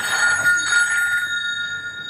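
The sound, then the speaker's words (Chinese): A telephone rings with an incoming distress call for a volunteer sea rescuer. The electronic ring is a bright, steady tone with sharp harmonics, strongest in the first second and then holding more evenly to the end. “喂， 这是一通求救电话。”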